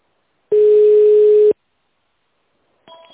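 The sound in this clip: A telephone line in touch-tone mode: one steady, loud, mid-pitched tone lasting about a second, then silence, then a brief dual-tone keypress beep at the end.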